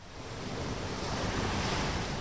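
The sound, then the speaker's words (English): Turquoise ocean waves wash onto a white-sand beach on Sabang Island, Indonesia, in a steady, broad roar of surf that swells slightly, mixed with wind buffeting the microphone and no voices. “With turquoise waves, white sands, and a row of pretty bungalows overlooking the beach, Freddy Rousseau's small resort on Sabang is often fully booked.”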